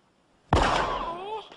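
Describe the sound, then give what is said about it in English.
A single loud gunshot bursts out suddenly, then a ringing tail sustains for about a second before fading. “You didn't have to shoot that old lady in the foot.”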